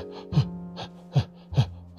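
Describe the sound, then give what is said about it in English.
A voice imitates gasping mouth breathing with three sharp, throaty gasps, each voiced and strained, separated by a low steady hum. The gasps are fairly loud and heard alone. “When I was young, I always used to breathe from my mouth. And these are the noises I made.”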